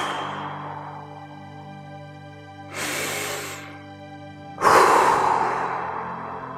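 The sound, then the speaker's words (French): A breathing exercise: a breath drawn in through the nose, then a quick, forceful exhalation through the mouth, both airy and loud, over a soft, steady sustained tone. “Inspiration par le nez et expiration rapide par la bouche.”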